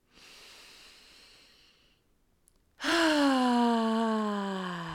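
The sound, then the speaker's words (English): A deep breath in, taken during an EFT tapping exercise. A soft, airy inhale lasts about two seconds, and after a short pause a louder voiced sigh-like exhale follows, its pitch easing slightly downward as it fades. “Take a deep breath in.”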